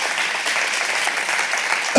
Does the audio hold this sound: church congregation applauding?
yes

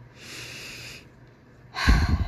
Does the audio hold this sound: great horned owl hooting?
no

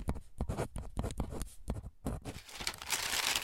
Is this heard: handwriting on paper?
yes

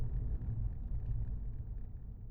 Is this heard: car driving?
yes

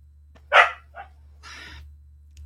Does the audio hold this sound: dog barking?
yes

